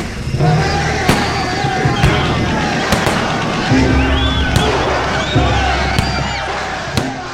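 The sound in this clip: A gunfire volley is fired into a crowd in a square, with a string of sharp, loud cracks at irregular intervals amid voices raised in the crowd.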